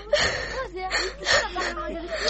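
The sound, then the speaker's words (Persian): A girl whimpers and cries in halting, breathy sobs. Several uneven bursts of voiced wailing are broken by short gasping catches of breath. “گریه نکو”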